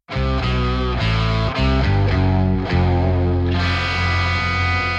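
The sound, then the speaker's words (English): Distorted electric guitar and bass play the same riff in unison, heavy chugging chords in an uneven rhythm giving way to a jangly, intense chord that rings on to the end. “The guitar and bass are both just doubling that riff together”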